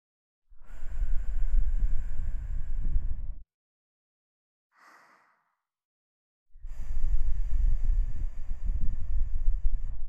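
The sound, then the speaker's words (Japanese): Breath blown into the ear: two long, loud, airy blows, each lasting about three seconds with heavy low rumble against the microphone, separated by a quiet gap with one faint short breath. “こっちも耳に息かけて終わりましょうか。”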